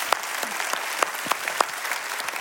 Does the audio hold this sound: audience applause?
yes